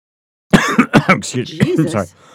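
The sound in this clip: Coughing from a person after a drink went down the wrong way: a rapid run of several harsh, loud coughs with some throat clearing, breaking out after a moment of silence.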